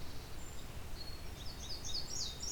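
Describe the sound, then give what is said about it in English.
Indigo bunting and field sparrow songs: faint, high, thin whistled phrases rising above a steady wash of background noise, becoming more frequent toward the end. “Indigo bunting and a field sparrow. There's our indigo bunting again.”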